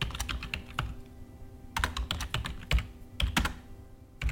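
Typing on a computer keyboard while writing a message: quick runs of key clicks broken by short pauses, uneven in pace and moderately quiet.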